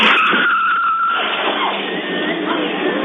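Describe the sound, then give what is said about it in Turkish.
Tires screech as a car skids sideways out of a side street onto an avenue in Bursa, Turkey: a loud, sustained squeal with a steady tone over a broad rushing roar, lasting about three seconds. “Ara sokaktan caddeye yanlayarak çıkan otomobil karşıya geçmeye çalışan yayaya çarptı.”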